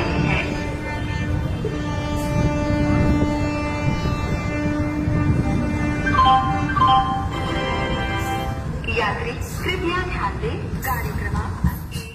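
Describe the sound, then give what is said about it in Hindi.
A superfast express train arrives at platform three of a railway station, with rumbling rail noise and sustained horn-like tones. A station announcement voice is heard over the train. “यात्री कृपया ध्यान दें गाड़ी क्रमांक एक दो आठ शून्य आठ सुपरफास्ट समता एक्सप्रेस थोड़ी ही देर में प्लेटफॉर्म क्रमांक तीन पर”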